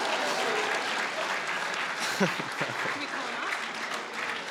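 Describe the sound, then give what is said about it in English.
Audience applause for a student called up at a Bishop Foley school gathering, a steady, dense wash of clapping with a voice briefly speaking over it midway. “Let's give Joe Harrell a hand.”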